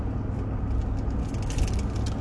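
A car drives along pine barren roads in New Jersey, giving a constant deep rumble of tyres and engine with a faint hiss above, steady and unbroken throughout.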